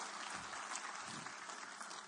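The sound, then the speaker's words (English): Applause from a church audience: steady, dense clapping from many hands, even and fairly faint throughout, with no voices standing out. “Give him a good clap offering. One more.”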